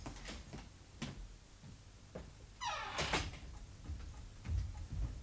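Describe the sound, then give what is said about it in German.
Footsteps on an iron staircase: a few sharp, hollow metallic knocks at uneven intervals over low background rumble. “Da ist jemand auf der Eisentreppe. Sei mal still.”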